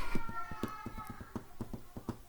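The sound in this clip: A trained drummer taps a driving beat on his desk with his hands: many quick, evenly spaced knocks in a steady, brisk rhythm, fairly soft.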